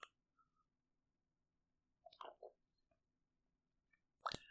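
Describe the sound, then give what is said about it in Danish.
Sips of a raspberry-orange tea, heard as a few faint, short wet slurping and mouth sounds separated by near-silence. “Først så vil jeg tage en tår af min te. Det er en te, jeg ikke har prøvet før. En hindbær appelsin te.”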